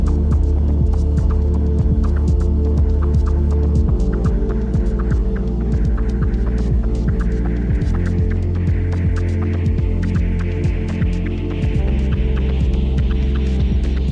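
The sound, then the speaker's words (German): The sound of the planet from the Solaris soundtrack: a loud, deep throbbing drone with steady rhythmic pulses and dense low tones, scattered with faint crackling clicks above. “Ja, soweit ein Ausschnitt aus dem Soundtrack von Solaris.”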